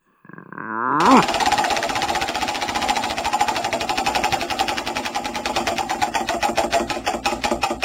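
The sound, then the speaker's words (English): Rapid ratcheting clatter of a prize wheel being spun. It starts abruptly and runs as a dense stream of clicks that gradually slows, so the individual ticks grow more distinct toward the end. “it's your turn to uh, spin the dial, oh, yeah, spin the wheel.”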